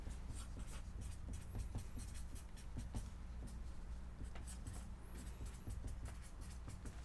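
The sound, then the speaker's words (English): Faint scratching of a pen writing a name down, soft irregular strokes against a low steady background. “I've got my name. Oh, what's your name? I want to write it down first.”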